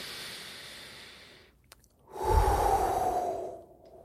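A deep breath taken before a prayer: a faint breath, a short pause, then one long, loud, airy breath that lasts over a second before it fades.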